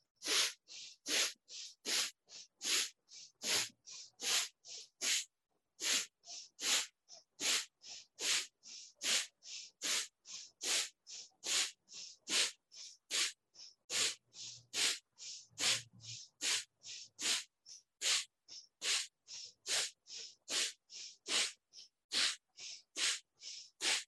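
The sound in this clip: Rhythmic, forceful nasal exhales of kapalabhati pranayama breathing from a 50-round set: many sharp, hissing puffs at a quick, steady pace with near-silent inhales between them and no talk.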